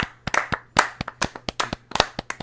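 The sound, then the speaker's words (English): Hosts clapping their hands, with many sharp, irregular claps that overlap in an uneven rhythm, loud and alone with no talk. “We're going to clap it out. Let's go ahead and clap it out,”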